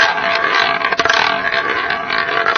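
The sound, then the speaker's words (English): A roulette wheel spinning, with a loud, continuous whirring and rolling rumble and a brief rattling clatter partway through. “here, for example, is a roulette wheel.”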